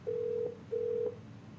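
Two short, steady beeps of a telephone ringback tone as a call line connects, equal in pitch and length, with a brief gap between them over faint hiss.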